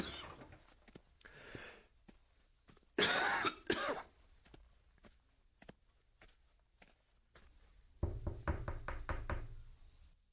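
Knocking on a door: a rapid series of firm, closely spaced raps toward the end, with scattered single knocks and thuds earlier, at a moderate level.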